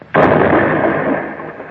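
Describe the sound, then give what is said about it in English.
An explosion blowing the door off a safe during a burglary: one sudden, loud blast that rolls straight into a long, rumbling roar and slowly fades. “The door's blown clean off.”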